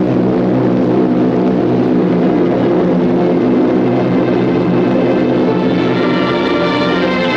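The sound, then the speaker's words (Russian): Loud, continuous engine drone of military airplanes with red stars on their wings flying overhead in a wartime scene, a steady, layered hum of tonal harmonics that holds throughout with no voices. “В небе летят самолеты с красными звездами на крыльях.”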